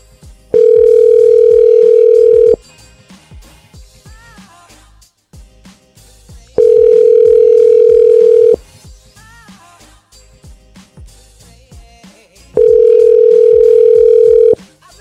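Ringing tone of an unanswered telephone call: three long, steady buzzing tones of about two seconds each, separated by pauses of about four seconds with only faint background noise.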